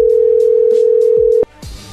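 Telephone ringing tone heard while placing a call: a single loud, steady mid-pitched tone lasting about a second and a half, then cutting off abruptly into quieter background noise.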